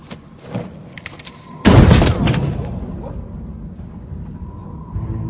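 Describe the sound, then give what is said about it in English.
A single loud gunshot, fired at a cursed pirate in a Pirates of the Caribbean scene, bursts out abruptly after faint voices and low background sound, then fades slowly in a long tail. “You're not dead. No. He shot me. It didn't work. The curse is still upon us.”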